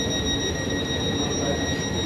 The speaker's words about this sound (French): Jeudi, 17h19, gare de Bienne